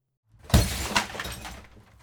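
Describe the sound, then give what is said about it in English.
Window glass breaks with a sharp crash, then a second burst and a scatter of tinkling shards that trails away, heard alone. “If one window is already broken, would it really hurt them to lose another? I'm gonna go with yes.”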